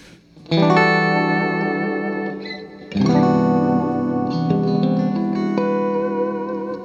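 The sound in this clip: Electric guitar played through a TC effects unit on its standard Hall reverb setting, performing a ballad: two loud strummed chords ring out in long, shimmering, reverberant tails, with a few single notes layered on top.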